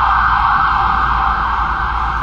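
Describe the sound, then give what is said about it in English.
An ambulance siren sounds as the vehicle goes by: a loud, steady, continuous tone held evenly throughout, with a low rumble beneath it and no voices. “And it has to do with an ambulance going by.”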